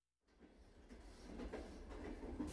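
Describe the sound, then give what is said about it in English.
A train riding the rails gives a quiet, steady low rumble with faint clatter, growing slightly louder over a couple of seconds, with no voices. “You're riding the rails with Conductor Joe.”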